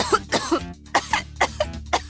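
A sick child coughs in a rapid run of short, hoarse, harsh coughs, several in quick succession with brief breaks between them.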